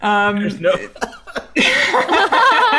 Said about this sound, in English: Sorry, that one made me cough.